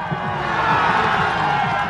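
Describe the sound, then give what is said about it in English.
Crowd cheering at an Olympic slalom ski race in Italy, a loud, continuous roar of many voices with shouts rising out of the mass. “In the final run of the race, the Olympics being here in Italy, the loudest cheering in the crowd was for the Italian slalom maestro, Giorgio Rocca.”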